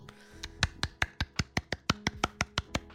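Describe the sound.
Hands clapping for a rock band, with many sharp, crisp claps in a steady, evenly spaced rhythm at a brisk pace.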